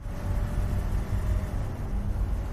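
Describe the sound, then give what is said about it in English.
A car drives down a sunny forest highway with piles of luggage in the back, heard as a steady, loud low rumble of engine and road noise that barely changes throughout. “Piles of luggage bump up and down in the back of a car as Ray drives Claire and Zoe down a sunny forest highway.”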